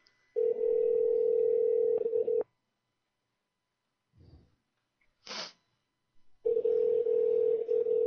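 A phone rings unanswered during a prank call, heard as two long, steady buzzing ringback tones, each about two seconds, separated by a long silence broken by a brief muffled thump and a short snort-like burst.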